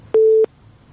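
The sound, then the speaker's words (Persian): One short telephone busy-tone beep after a caller's line dropped: a steady mid-pitched tone lasting about a third of a second, with near silence before and after. “متاسفانه که تماس فریبا جان هم قطع شد”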